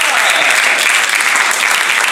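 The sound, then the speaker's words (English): Loud audience clapping to signal a yes vote in a rating game: a dense, continuous roar of hands that stays even from start to finish. “Clap if this is a Portman yes.”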